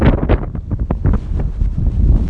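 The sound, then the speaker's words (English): Strong wind buffets a phone microphone that is partly covered by a hand, making a loud, gusty, rumbling roar that surges and dips throughout without any talk. “it's so windy, I've sort of got my hand over my nose and over the phone”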